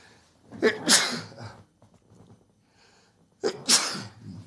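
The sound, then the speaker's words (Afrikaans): A person sneezes twice during a sermon, each sneeze a quick intake of breath followed by a loud, explosive burst, with a quiet pause between them. “ek skies toch, lekker nies ek nou”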